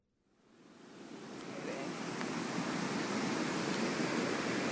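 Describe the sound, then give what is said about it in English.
The flood-swollen South St. Vrain River rushes in a steady, broad roar of churning water after it jumped its banks and flooded Lyons. The sound swells in over the first second and a half, then holds constant. “Okay, this is the sound of the South St. Vrain River, which has, it looks like the Congo at this moment.”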